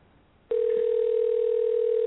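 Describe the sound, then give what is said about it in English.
Telephone dial tone while placing a call to a farm: after half a second of faint hiss, a steady, unbroken hum starts abruptly and holds at an even, moderate volume to the end. “Calling Hag Farm to talk with Claire.”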